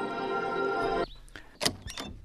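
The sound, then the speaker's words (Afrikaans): A door is opened: a sustained buzzing tone gives way to a few faint clicks and a brief, dull thunk of the latch and door, short and fairly quiet with no voices. “Ek sal jou moed leer om die deur oop te maak.”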